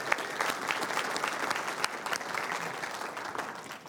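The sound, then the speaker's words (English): A church audience applauds to welcome returning members back into the church. The clapping is dense and steady, with sharp individual claps standing out, and it continues evenly for about four seconds with no talking. “Can we just put our hands together and welcome Steve and Joni Hauser?”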